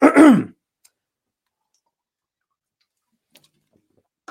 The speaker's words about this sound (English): Excuse me. Something in my throat.